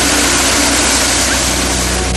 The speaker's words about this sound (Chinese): 现有所有的烘干设备都是全马力开动进行粮食烘干作业。